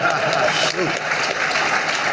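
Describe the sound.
Audience clapping after a speaker's line, a dense, sustained wash of applause with a voice briefly rising over it.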